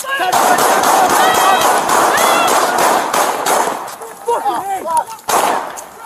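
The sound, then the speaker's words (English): Many rapid gunshots crack out during a police confrontation over a locked door, a dense volley of sharp bangs at first, followed by urgent shouting voices with a few more loud bursts. “Shots fired!”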